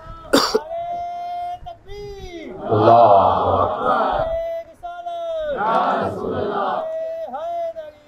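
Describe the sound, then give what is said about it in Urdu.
A crowd chants slogans at a political gathering: a lone voice calls out, and the crowd answers with two loud, rough bursts of shouting, with short pauses between them. “لہذا جو اس میں متفق ہو وہ نعرہ لگا سکتا ہے”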